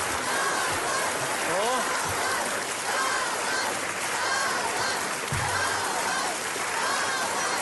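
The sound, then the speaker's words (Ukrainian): Standing ovation at the Kyiv opera, a continuous dense roar of clapping through the whole stretch, with people talking over it. “Вам ніколи не аплодувала стоячи київська опера? Ще ні. От перший раз.”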